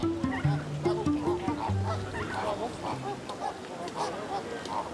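Young flamingo chicks calling in a busy, overlapping chorus of short nasal honks and peeps that continues without pause throughout.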